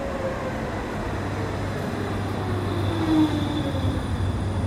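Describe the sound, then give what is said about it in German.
A tram brakes to a stop, giving a steady low rumble of rolling wheels with faint, thin brake tones drawn out over several seconds. “Und erst jetzt kommt dann auch die Bahn zum Stehen.”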